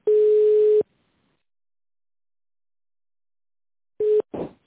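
A telephone tone sounds while a call connects: one steady low beep lasting under a second, a long silence, then a second short beep followed by a brief crackle.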